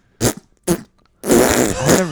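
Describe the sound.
A voice imitates a loud fart in a toilet stall: two short sputtering bursts, then a longer, rumbling, drawn-out blast that swells near its end.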